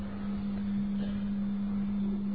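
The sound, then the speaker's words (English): Water pump running with a continuous low mechanical hum and a steady tonal drone. The sound stays even in level throughout, with no talk. “What is it? Water pump. Water pump, huh? Let it be. Doing better service than me.”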